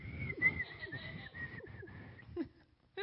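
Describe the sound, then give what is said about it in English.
A person whistles a steady, sustained tone for about two seconds, with low voice-like murmuring beneath it, then a short break before a brief burst of sound at the end. “This is where the whistling comes in, right?”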